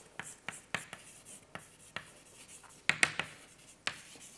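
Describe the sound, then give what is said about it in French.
An equation is written out by hand, heard as many short, crisp strokes and taps in an irregular rhythm, with a few sharper, louder clicks toward the end. “dont je vais écrire une équation qui date de 1962, l'équation de Kimura, qui décrit plus précisément. Je vais l'écrire ici.”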